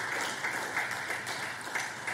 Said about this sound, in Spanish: Dale una ofrenda de palmas.